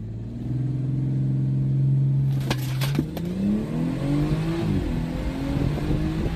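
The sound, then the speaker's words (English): A BMW 340 on its stock tune accelerates from 0 to 60, its loud engine drone holding steady at first, then climbing in pitch as it pulls hard, with a few sharp clicks partway through. “Let's see how much faster this 340 gets with a Beamer Network downpipe and a Stage 2 92 octane pump gas tune. All right, here's the before.”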